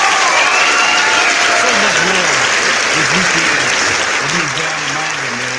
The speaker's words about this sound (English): I want to give a big round of applause, man, to our UTALK family, our brothers, man, for showing me and my homeboy so much love